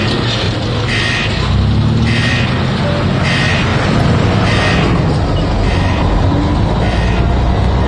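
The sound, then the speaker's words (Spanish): A truck drives into a prison compound, giving a loud, steady low rumble that runs unbroken through the whole stretch, with a rougher hiss layered above it. “El camión entra en el recinto carcelario.”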